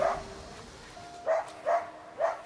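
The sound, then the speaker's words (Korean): A dog that barks hard when left apart from its owner gives a few short, sharp, mid-pitched barks with brief pauses between them. “호자와 조금만 떨어져도 심하게 짖는 녀석 때문에 잠시 자리를 비우는 것도 쉽지 않았는데요.”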